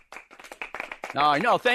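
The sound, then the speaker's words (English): Clapping from a small live studio audience at the Stick to Wrestling headquarters in Nashua, New Hampshire: brief scattered claps, then loud whooping voices. “for the first time ever here at Stick to Wrestling headquarters in Nashua, New Hampshire, we do have a live studio audience. Let's hear it, guys.”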